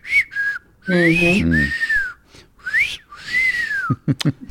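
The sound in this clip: A voice whistles in imitation of a nurse's whistle: several short clear tonal whistles with sliding rising and falling pitch, one broken by a low voiced note, followed by a few quick clicks.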